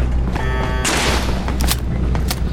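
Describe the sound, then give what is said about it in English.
Small floating eyebot enemies fire in a video game: a short buzzing tone, then a few loud, sharp blasts and bursts of gunfire crackle in quick succession. “These little eye bots floating around shooting at me. I like when they pop.”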